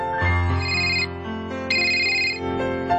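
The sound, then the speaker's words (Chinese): An electronic telephone ringtone plays a bright melodic pattern of tones in two repeating phrases, fairly loud and alone, with no talk. “做咩唔听电话噶？再打过先。”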